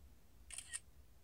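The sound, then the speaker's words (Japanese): A camera shutter fires while taking a photo of a toy in a very small recording room: two quick, crisp mechanical clicks in close succession over a quiet background. “今日はね、これを写真に撮ってくださいっておもちゃを言われてるので、このめちゃめちゃ狭い録音のお部屋で写真を撮ります。”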